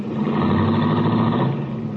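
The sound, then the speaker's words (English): A convertible car pulls out into traffic, its engine giving a steady, loud mid-pitched rumble that holds for a couple of seconds without pause, with no voices. “I watched Cookie's baby blue convertible cut out into the traffic.”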